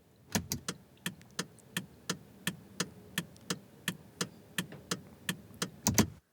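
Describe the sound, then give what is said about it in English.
Turn signal of a Honda Civic car, ticking in a steady, even rhythm: many crisp, faint clicks in a long unbroken series with a tick-tock feel, with no voices. “I want to say that's your turn signal in a car.”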